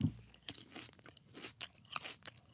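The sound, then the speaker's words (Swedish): Crisp crunching as someone bites into and chews a piece of bell pepper, with many quiet, irregular wet crunches and chewing sounds, no talking. “Okej, så jag bara stoppa in i min mun, eller? Mm. Ät den. Bara ät den.”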